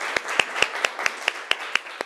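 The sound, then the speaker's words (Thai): Students in a Thai classroom clap together for a classmate during a physics lesson, nine sharp claps in unison at a quick, steady, even pace. “ปรบมือให้ลูกขวัญหน่อยนะคะ”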